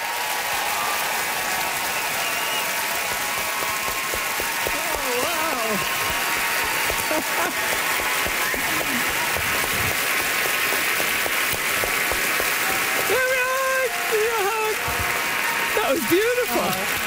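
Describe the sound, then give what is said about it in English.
Dense, sustained applause from an audience welcoming a guest of honor at a gathering for a novelist, loud and steady for the whole stretch, with voices emerging near the end. “Great applause, rock applause, and that's how you get to see folks.”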